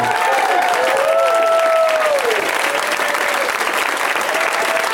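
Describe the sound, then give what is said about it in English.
Sustained audience applause as three comedian guests are welcomed on a comedy talk show, a dense, steady wash of clapping that holds at an even, loud level throughout. “So the standing ovation thing's already worn off.”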